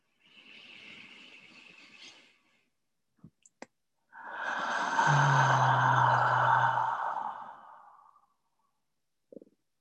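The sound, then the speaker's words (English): Slow, deep breathing in a guided relaxation: an airy inhale of about two seconds, a pause with a few small clicks, then a longer, fuller exhale of around four seconds that fades out, ending with a soft click. “So we invite on that inhale, and we allow on the exhale.”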